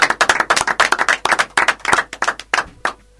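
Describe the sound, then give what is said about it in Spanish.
Brisk hand clapping in a dense, uneven stream of sharp claps lasting about three seconds, thinning out toward the end, with no voices over it. “Un aplauso. Un aplauso.”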